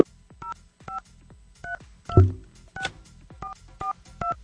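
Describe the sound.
Telephone keypad dialing tones as a number is dialed to call a contest participant: a series of short, evenly spaced beeps of differing pitch, with a brief low thump partway through.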